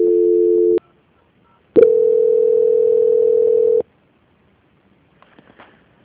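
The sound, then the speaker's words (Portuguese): Telephone line tones sound during a call transfer: a short, steady tone stops, and after a pause a longer, level tone holds for about two seconds. A few faint clicks follow, with no talk. “vou transferir o seu contato para o controle de qualidade que dará continuidade na sua contratação. Só um minutinho, tá bom? Tá bom, obrigada. Obrigada eu. Transferência.”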